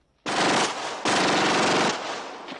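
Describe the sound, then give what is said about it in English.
Automatic gunfire as a man is shot after being beaten to the ground: two long, dense bursts of rapid shots, the first just under a second and the second slightly longer, each loud and harsh, trailing into a fading tail. “He batters him to the ground, then shoots him.”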